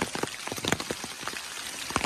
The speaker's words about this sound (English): I want to show you the rain we were dealing with when we got there because I got that too. And it's, I mean, it was just like pouring.